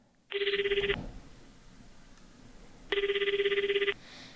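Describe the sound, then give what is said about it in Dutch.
A telephone rings as a call is being placed, giving two loud trilling rings separated by a steady pause. “Zeg, zullen we nog even bellen met juffrouw Caroline? Ja, goed idee.”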